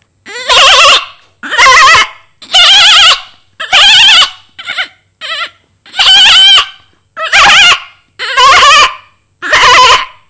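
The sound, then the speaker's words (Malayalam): A human voice imitates a family of goats: ten loud, quavering bleats separated by short pauses, two of them brief and clipped in the middle. “Okay, അപ്പൊ ആടിന്റെ ഒരു കൂട്ടുകുടുംബത്തെ കൂടെ എന്നെ പരിചയപ്പെടുത്താം.”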